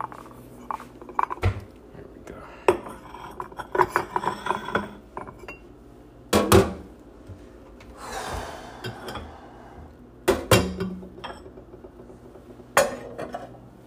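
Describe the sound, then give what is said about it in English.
Ceramic bowls, a mug and a small saucer plate clink and knock together as they are gathered up one-handed before washing, with many scattered sharp clatters over quieter handling noise. “I'm trying to hold these with one hand without dropping them. I need to wash them. It's a couple bowls and a mug and a little saucer plate.”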